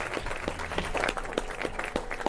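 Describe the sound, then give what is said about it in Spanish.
Sparse applause comes from an audience at a live Spanish-language stage show. A few sharp, uneven hand claps are spread over about two seconds rather than a full ovation. “¡Aplauso, por favor, para mi amigo Miguel! Gracias. ¡Aplauso para mí!”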